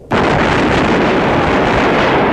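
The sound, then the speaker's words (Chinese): A squad of soldiers fires a rifle volley into the sky during a salute in the mountains. A sudden loud blast opens into a dense, sustained roar of crackling noise that stays strong to the end. “一班战士手中的步枪开始对天射击，”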